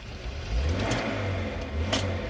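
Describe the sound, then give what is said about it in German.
Minibus engine driving down a ramp and spiral road into a mine in the Erzgebirge, a steady low rumbling hum with a few brief brighter surges, and no voices. “Wir fahren mit einem Kleinbus auf einer Rampe hinein und über eine Wendelstraße in die Tiefe.”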